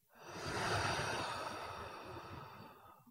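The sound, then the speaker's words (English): One slow, steady breath drawn in through the nose and released through the mouth, a soft, airy rush that swells quickly and then fades gradually, alone without talk. “Now take a slow breath in through your nose and let it out through your mouth.”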